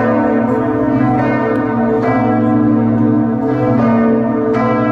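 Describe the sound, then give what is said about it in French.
Two large bourdon bells of Quimper cathedral toll, the bigger one cast in 1837, weighing 3 tonnes and tuned to B-flat. Several deep strikes sound over a rich, continuous ringing resonance that never fades between blows. “ce que vous entendez ici, ce sont les deux bourdons de notre cathédrale Saint-Corentin de Quimper, dont le plus gros fut fondu en 1837 par Briens à Morlaix. Il fait 3 tonnes et il sonne le si bémol à la seconde octave.”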